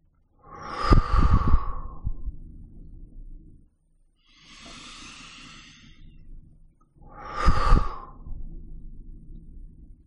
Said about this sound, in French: vous faites trois respirations profondes. Prenez plaisir à inspirer et souffler.